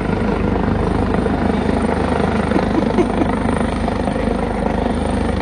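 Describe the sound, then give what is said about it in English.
A helicopter landing right behind an outdoor press conference, its steady, loud rotor and engine roar filling the whole stretch evenly and burying any other sound. “all of a sudden, in the background, Robert Kraft's chopper starts to land right behind him”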